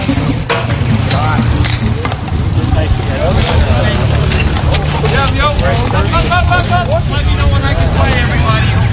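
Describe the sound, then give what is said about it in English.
Bike polo game on a hard court in a city park, heard as a continuous loud wash of noise with many overlapping shouts and voices from players and onlookers. “That is the sound of bike polo.”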